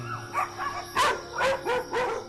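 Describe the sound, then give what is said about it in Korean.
Dogs kept tied up outside at night bark and yip in a few sharp, fairly faint bursts spread over about two seconds, with no voices. “밤이 되면 목청을 높이는 아이들. 이렇게 짖어도 뭐라 할 사람도 없고요.”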